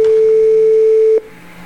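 A voicemail beep before the message: one steady, clear electronic tone holds for a little over a second, then cuts off abruptly. A faint line hum remains underneath.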